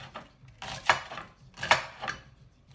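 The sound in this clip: A knife chops onions and courgettes, giving a few sharp, woody knocks; two land harder than the rest, with quieter taps between them.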